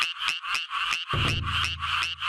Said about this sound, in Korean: 청개구리가 예. 논뚝 아니면 논뚝 근처에서 앉아서 저렇게 노래를 해요.